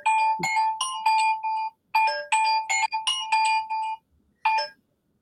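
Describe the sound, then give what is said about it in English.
A mobile phone belonging to the speaker's father rings with a melodic ringtone: bright electronic chime notes in quick repeating phrases, loud and alone, cutting off after a brief final note. “I think that's my phone, my dad's. Let me turn it off.”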